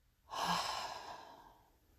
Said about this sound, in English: Breathe with me. Inhale. Exhale.